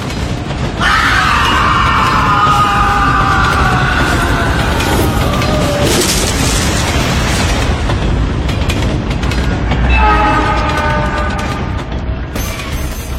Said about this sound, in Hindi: विक्रम को चलती ट्रेन के नीचे फेंक दिया किसी न दिखाई देने वाली शक्ति ने